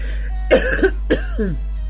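A woman with a cold coughs twice, short rough bursts that sound like throat clearing, over a steady low hum.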